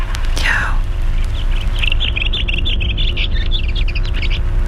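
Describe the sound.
Birdsong rings out as many quick, high chirping notes in repeated bursts through the second half, over a constant low rumble.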